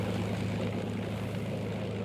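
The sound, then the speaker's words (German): Steady, droning propeller-aircraft engine running in flight at an even, fairly loud level with no break, a low humming roar with a rough texture throughout. “Ein Surren ertönt. Dann endlich, nach langen, bangen Sekunden, springt der Motor wieder an.”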